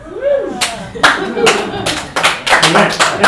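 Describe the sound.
Audience applause at a comedy set: several sharp, scattered bursts of clapping, loud against a voice talking throughout.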